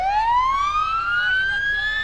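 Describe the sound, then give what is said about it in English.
An ambulance siren in a Fourth of July parade in Unalaska: a single loud, steady electronic wail whose pitch climbs smoothly from start to finish. “After the singing ambulance”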